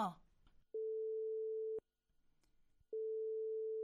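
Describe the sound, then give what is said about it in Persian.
A telephone ringback tone sounds while a number is being called: two steady, mid-pitched long beeps of about a second each with a pause between, after a brief voice at the start. “تلفن کو زنگ تلفن کو. خب باش که شماره خور ما بگیرم.”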